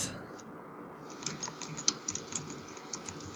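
Faint, irregular clicking of a computer keyboard as someone types a YouTube search, with many quick keystrokes in uneven bursts.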